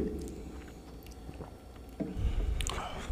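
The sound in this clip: Someone chewing while tasting a cream and vodka mix, with soft, moist bites and mastication at a modest level that grow louder and denser toward the end.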